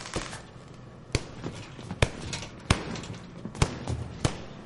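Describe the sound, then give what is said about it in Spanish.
A boxer punching a heavy bag in a boxing gym: sharp, hard thuds land at irregular intervals, several loud ones with softer hits between them, over a quiet background. “En el gimnasio, Maggie golpea un saco.”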